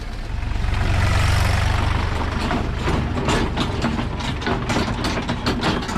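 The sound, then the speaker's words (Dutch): A tractor hauling seven large crates of freshly picked pears through a pear orchard toward cold storage, its engine a steady, rough rumbling drone with some clattering toward the end. “Er zijn net weer 7 grote kisten gevuld met peren. En die worden door een tractor naar de koeling gereden.”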